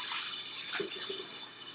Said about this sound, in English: Your hands are covered in egg. Wash it off. Wash it off.